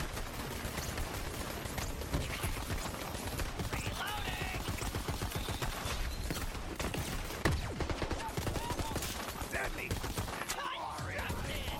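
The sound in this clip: Gunfire in the video game Borderlands 3: many rapid shots blend into a dense, loud, continuous barrage that runs through the whole clip with no clear pause.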